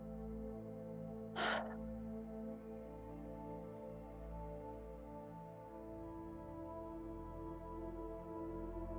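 A single quick, deep breath in during a guided relaxation exercise. It is a short, airy intake, faint against a steady low droning music bed that continues throughout.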